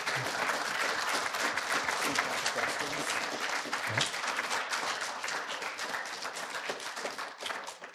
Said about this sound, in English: We give him a round of applause.